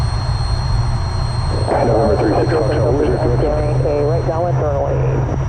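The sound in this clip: A steady, droning aircraft engine heard from inside a pressurized aircraft cabin, with constant high whining tones. A voice talks over the drone after the first couple of seconds.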